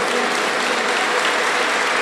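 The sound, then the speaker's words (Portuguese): Audience applause at a religious gathering: steady, dense clapping that holds at an even, loud level throughout, with no voices standing out. “Olha que beleza, um aplauso para vocês por esse momento tão bonito.”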